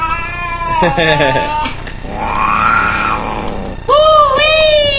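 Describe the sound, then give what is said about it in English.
A cat meowing and yowling in several loud, drawn-out, wavering cries, with a long wail in the middle that rises and then falls. “That kitty sounded exactly like Marf.”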